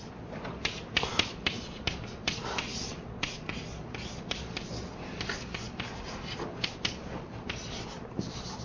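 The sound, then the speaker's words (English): Writing an equation on a board during a lecture: many light, irregular taps and short scratchy strokes. The sounds stay fairly faint throughout. “I'll just write schematically.”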